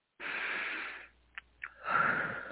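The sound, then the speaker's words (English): A slow deep breath during guided breathing: a long, airy inhale, a short quiet gap with a couple of faint clicks, then a breathy exhale rising again. “So once again, take another deep breath.”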